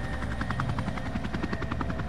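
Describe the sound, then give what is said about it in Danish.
A military helicopter hovers over a black-painted, barricaded house in Copenhagen's Nørrebro district on an early March morning. Its rotor beats in a loud, rapid, continuous thumping throughout, with no voices. “En militærhelikopter flyver ind over ungdomshuset på jagtvej nummer 69. Den hænger over det sortmalede og barrikaderede hus”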